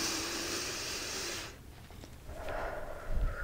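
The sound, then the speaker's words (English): A slow breath drawn in during a close examination, heard as a broad, airy hiss lasting about a second and a half, followed by quieter breathy rustling. “Breath in for me, just like,”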